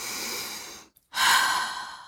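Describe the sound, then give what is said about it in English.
A deep breath drawn and let out: a long airy rush of breath that tapers off, a brief silent pause, then a louder, fuller breathy release that slowly fades. “take a big breath”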